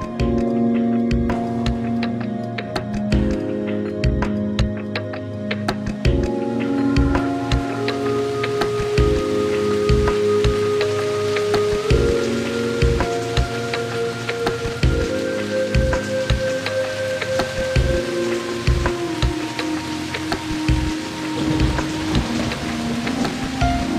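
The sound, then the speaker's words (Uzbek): Steady rain falls in a continuous patter that runs throughout, mixed under sustained background music with bright, repeating notes. “Bu yerda yomg'ir ham boshlandi.”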